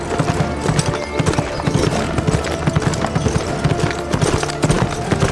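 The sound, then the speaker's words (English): Horse hooves trotting at an unhurried pace, a steady rhythmic clip-clop of many hoofbeats that continues evenly throughout. “he was almost leisurely as he saddled Spirit, then rode at no more than a trot in pursuit.”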